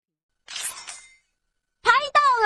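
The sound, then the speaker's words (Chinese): A voice imitates a camera shutter click with a breathy, hissy "ka-cha" burst. After a short pause, a brief spoken phrase follows. “要帮月亮照相，你得说咔嚓。”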